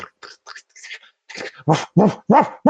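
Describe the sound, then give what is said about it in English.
A human voice imitates an angry German Shepherd barking: a few soft, breathy sounds lead into four sharp, loud bark-like bursts in quick succession. “this gigantic angry German Shepherd comes running around the side of the building and starts barking at you”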